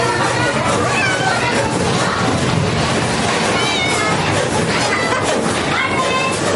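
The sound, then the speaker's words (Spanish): A mother cat with her kittens on a city street, meowing repeatedly in high, wavering cries over a constant busy background hum. “Ángel observa cómo una gata cuida de sus cachorros”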